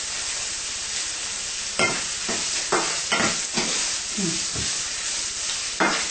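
Pine nuts cook in a pan with a steady, bright sizzle throughout, broken by several sharp scraping knocks as they are stirred. No one speaks.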